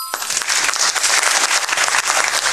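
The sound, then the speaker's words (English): A huge crowd of tens of thousands roaring and clapping as it waits for an artist to come on stage: a loud, dense wall of noise with constant clapping and no pauses. “Sound of a crowd of like 100,000 people screaming for an artist about to come out on stage.”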